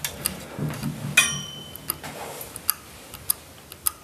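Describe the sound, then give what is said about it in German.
Clicks and ticks from a clock being set sound as a run of light, irregular taps and snaps, with one sharper, rattling click early on, over a faint background hiss. “Und ich kann ja mal kurz die Uhr stellen.”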